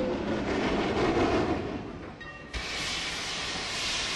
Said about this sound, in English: There goes the safety valve. These were hand-fired locomotives.